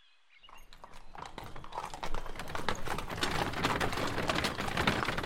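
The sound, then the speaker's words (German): Horse hooves clip-clop as a rider travels in 1824, many quick, even hoofbeats that fade in after a brief silence. They grow steadily louder, then hold a continuous rhythm with no talk. “Gideon Mantle reitet zu einem Kranken”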